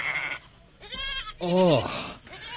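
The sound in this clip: Goats bleat in a couple of wavering, nasal cries: first a higher call, then a louder, lower one with a trembling pitch. The cries are fairly quiet overall.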